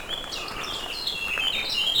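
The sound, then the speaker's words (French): Birds sing outdoors under a heavy, overcast sky, a faint stream of many quick, high chirps and trills overlapping one another with no talk. “ce qui n'empêche pas les oiseaux de chanter.”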